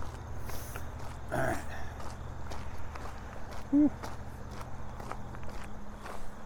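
Footsteps of a person walking with a dog on a cool day, heard as a steady run of soft, regular steps at moderate loudness throughout.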